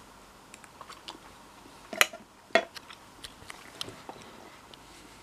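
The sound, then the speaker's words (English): Faint crunching bites into freshly harvested home-grown vegetables from pots. Two sharper, louder crunches stand out among soft scattered clicks of chewing. “So the moment of truth, here goes, and for those of you who might be traumatised by seeing me eat, I apologise in advance.”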